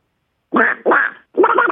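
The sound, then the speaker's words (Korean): A human voice imitates ducks fighting during a voice-mimicry contest. It makes three loud, harsh, raspy quacking bursts in quick succession, each under a second long, with no other sound. “저기, 저기 오리가 또 싸우는 게 있거든요.”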